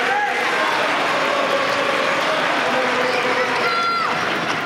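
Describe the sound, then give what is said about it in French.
A tennis crowd on Philippe Chatrier court cheers and roars in support of a player serving in the fourth set, a dense, continuous wall of voices and applause at a constant loudness. “Il est au service et il est soutenu. Écoutez le public du Philippe Châtrier.”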